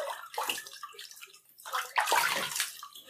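Bath water sloshes in a bathtub in quiet, irregular bursts of splashing and swirling, with a few stronger surges of moving water.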